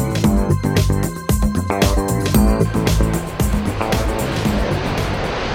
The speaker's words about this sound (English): So that is the sound of the F-35 Lightning II fighter aircraft